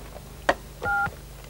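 A single telephone keypad tone, a short steady dual-pitch beep lasting about a quarter second, comes faintly after a brief click, with a low background hum throughout.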